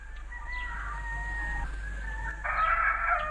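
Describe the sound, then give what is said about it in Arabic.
A rooster crowing: a drawn-out tonal crow followed by a shorter, brighter and harsher one, fairly faint over a low steady hum. “وفي هذه الأثناء عاد ديك وبصحبته أرنوب، ولما شاهد بنفسه ما يجري صاح وقال”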